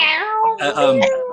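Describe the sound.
Several cats meow in overlapping, wavering cries, their pitch rising and falling across a short burst, while a person speaks over them.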